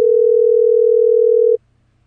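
A phone call tone on an online calling service: one steady, mid-pitched beep held for about one and a half seconds, then cut off abruptly into near silence.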